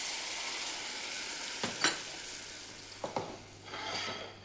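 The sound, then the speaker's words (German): Turnips, spring onions and young fennel fry in a pan with a steady, faint hiss of sizzling, broken by a few short clatters as the vegetables are stirred and tossed. “Weiße Rübchen, Lauchzwiebeln und jungen Fenchel. Angebraten und durchgeschwenkt wird das Gemüse schließlich und mit Heusud abgelöscht.”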